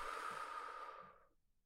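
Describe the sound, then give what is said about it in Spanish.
A single long exhale, like blowing out birthday candles in a guided breathing exercise, is a soft, steady, airy rush that fades away toward the end. “Inhala, oliendo una flor. Exhala, soplando las velitas del pastel.”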